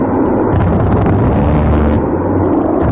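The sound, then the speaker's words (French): Roar of an A-10 Thunderbolt American combat jet with its .50 gun: a loud, dense, low rumbling blast that stays heavy and unbroken for the whole stretch, with no voices. “C'est un avion de chasse américain. Ça fait un beau son, en fait, avec la .50 que c'est le top du canon.”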